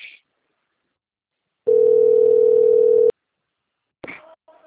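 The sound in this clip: A steady, unbroken telephone dial tone lasts about a second and a half while a number is called. Brief bursts of other sound come before and after it.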